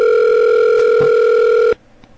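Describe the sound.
Ringback tone of an outgoing telephone call: a steady, loud electronic tone built from layered pitches that holds for nearly two seconds and then cuts off abruptly into quiet.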